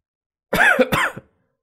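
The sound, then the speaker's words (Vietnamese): A badly wounded man coughs up blood in battle: two harsh, throaty coughs in quick succession, with nothing else around them. “Hắn không ngừng ho ra máu, lần đầu tiên chịu trọng thương như vậy trong đại chiến.”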